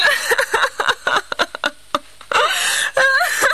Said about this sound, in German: Was hat Mama denn? Warum weint sie denn so?